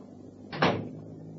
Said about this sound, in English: put them on the table and close the door when you leave